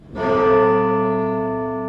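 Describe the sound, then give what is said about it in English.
Clock tower bells in Toronto's Old City Hall tolling the 10 a.m. hour. A single deep, loud strike blooms into a rich, sustained ringing that slowly decays. “Deep inside the clock tower in Toronto's Old City Hall, the bells are tolling 10 a.m.”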